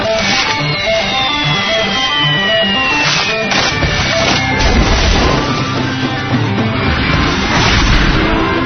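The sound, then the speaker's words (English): Bombs drop and explode: a descending whistle falls in pitch, then a dense, loud run of booms and crashes continues without a break. “Now, bombs away!”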